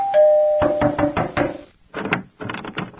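Knocking on a door, a quick run of several raps that stops, then two more short bursts of knocks, opened by a brief steady bell-like tone.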